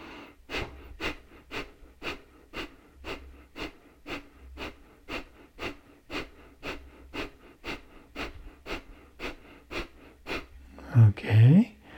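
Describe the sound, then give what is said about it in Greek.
Rapid forceful breaths in a breathing exercise, the belly pulled in sharply on each one: a long, steady train of many short, sharp puffs at an even, quick rhythm. “θα κάνουμε γρήγορες αναπνοές, τραβώντας την κοιλιά μέσα με ένα απότομο τρόπο για 10 δευτερόλεπτα.”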